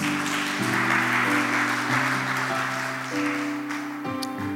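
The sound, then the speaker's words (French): A church audience applauds after a sermon in an even wash of clapping, laid over sustained keyboard chords that shift a few times. “Est-ce qu'on peut continuer à acclamer Dieu pour ce message merveilleux? Mais nous sommes en train d'acclamer comme si on n'est pas motivé.”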